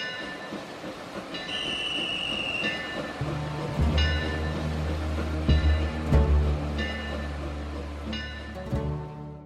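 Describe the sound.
An express train stands at a station platform on the seaward side, getting ready to depart. A steady low rumble carries a high squeal early on and a few heavy clanks, and no one talks.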